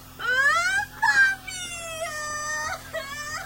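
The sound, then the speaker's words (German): A girl wails and cries in a dramatized Asterix audiobook: a few long, high, tearful wails with brief catches of breath between them. “Siehste, und schon geht das Geplärre los.”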